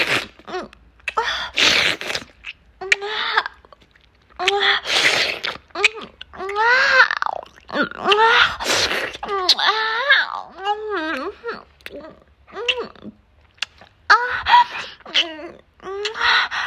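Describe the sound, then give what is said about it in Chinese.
Sticky saliva stirred in the mouth for ASMR, producing many wet clicks and smacks mixed with breathy voiced moans and gasps, arriving in irregular bursts with short quiet gaps. “我们一起来搅拌口水啊，好黏的口水啊，”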